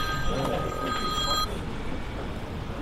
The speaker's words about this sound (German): Kanzlerin ruft an.